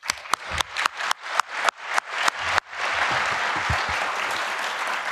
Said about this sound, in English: Big applause for him.